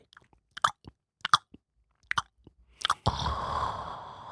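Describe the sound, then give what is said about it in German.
Chewing on a Philly cheesesteak: several crisp, crunchy bites and moist mouth sounds in short bursts, followed by a steady, noisy rush that lasts to the end. “geh zur Chicago Williams in Berlin und ess ein Philly Cheesesteak.”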